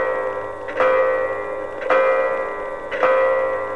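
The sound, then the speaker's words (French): A clock strikes the hour with heavy, ringing strokes; three evenly spaced chimes are heard, about a second apart, each leaving a sustained metallic hum that fades before the next. “quand 1 heure encore fut passée et que l'horloge sonna 4 gros coups”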